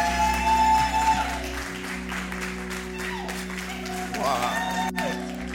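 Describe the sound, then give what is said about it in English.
An audience applauds at a church service as a visiting apostle is welcomed to the stage, clapping spread out over a sustained musical hum, with voices and a few shouts mixed into the crowd noise. “Let's put our hands together and rise to our feet. Amen. As we welcome Apostle Joel.”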